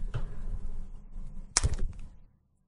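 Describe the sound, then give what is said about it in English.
A hard-boiled egg's shell cracking during a party game of picking eggs from a basket, a single sharp crack followed by a brief crunch over low background noise. “Okay, I cracked it, but this is a hard-boiled egg.”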